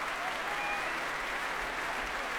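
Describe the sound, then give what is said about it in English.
Dense applause from a concert audience and orchestra as the conductor returns to the stage, an even, unbroken wash of clapping. “Semyon Bychkov making his way back on stage now. Great cheers from audience and orchestra.”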